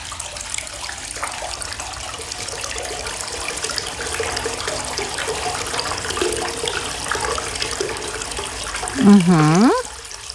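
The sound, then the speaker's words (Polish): Water pouring into a bathtub: a steady, loud rushing flow that holds its level across the whole stretch. “No co to? To jest woda. A dokąd, gdzie się ta woda lała?”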